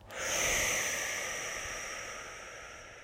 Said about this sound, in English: Let's breathe in together, in through the nose, out through the mouth.